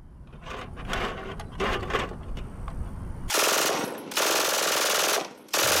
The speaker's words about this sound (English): Can we hear an MG42